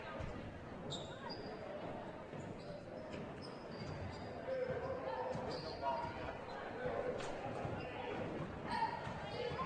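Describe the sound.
Basketball dribbled on a court during a game: repeated dull bounces in an uneven rhythm beneath steady crowd noise, with people talking throughout.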